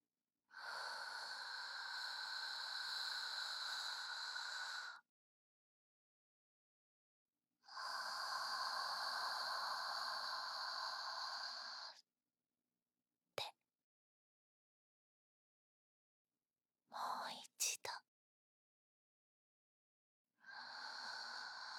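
Slow, deep breathing in and out: two long, airy breaths of about four to five seconds each, separated by silent pauses and a few short clicks, then a third breath starting at the end, with no talk.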